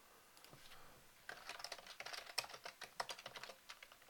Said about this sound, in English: I'm sorry, you're hearing me type again, because I need to find this out.